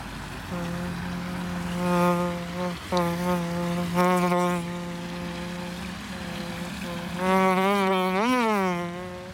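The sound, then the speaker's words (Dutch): A human voice imitates a buzzing housefly, holding a steady nasal drone for several seconds with brief breaks, then ending in louder buzzing that swoops up and down in pitch. “Zal ik de vlieg doen? Ja, doe even de vlieg.”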